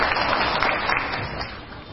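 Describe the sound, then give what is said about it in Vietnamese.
Audience applause at a Buddhist teaching and question session, a dense, even patter of many hands that sounds muted and dull-toned and holds steady for the whole clip. “cho một tràng pháo tay tặng phần quà.”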